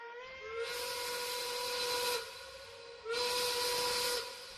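A steam train whistle sounds before departure in two long, high, hissing blasts separated by a short gap, each held steadily at full strength before cutting off.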